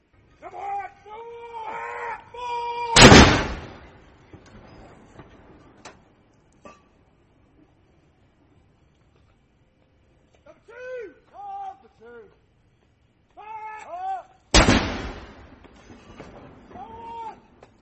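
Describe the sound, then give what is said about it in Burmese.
Two sharp, loud booms from a 62-gun royal salute fired by artillery in London, spaced well apart, with a voice speaking in between and over them. “Charles ဘင်းရဲ့နန်းတက်ပွဲအတွက်တော်ဝင်ဂုဏ်ပြုတက်ဖွဲ့ကလန်ဒန်မြို့စင်းကနေတနက်62ချက်ပြစ်ပေါက်ပြီးဂုဏ်ပြုလိုက်ပါတယ”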